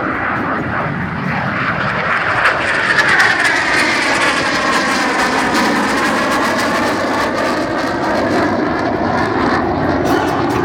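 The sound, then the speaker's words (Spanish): An F-16 fighter jet takes off with a loud, continuous engine roar. Sweeping, shifting tones run through the dense noise for the whole stretch, with no voices. “ese es el despegue de un F-16”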